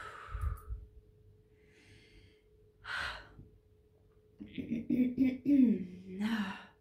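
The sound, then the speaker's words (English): A deep breath in during a guided relaxation and grounding exercise, with a few soft, airy breaths spaced apart and a longer voiced sigh near the end, all fairly quiet. “I can take a deep breath in.”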